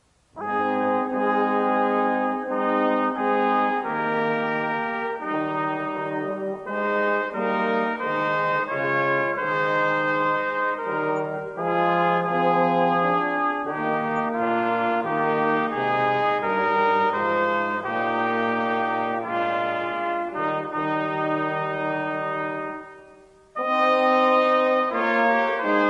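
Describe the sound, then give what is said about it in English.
A brass quintet plays an arrangement in sustained, full harmony: steady, loud chords with shifting melodic lines, a brief drop-off near the end before the ensemble returns. “here is the same arrangement as performed by a brass quintet.”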